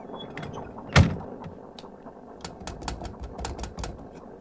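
Submarine hatch being shut: one sharp, loud metallic clank, then a run of lighter mechanical clicks and knocks as the mechanism is secured.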